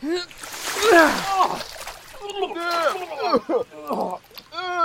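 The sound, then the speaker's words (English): Splashing as a bedpan of urine is emptied from above, a broad wet burst in the first second or so, heard under and between loud, excited voices. “why are you emptying a piss pot on our heads?”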